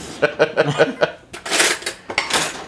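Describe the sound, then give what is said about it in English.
A spoon stirring chili in a pot gives a quick run of light clinks, then longer, rougher scraping strokes against the metal, fairly loud. “I gotta stir that chili. Stir the chili here.”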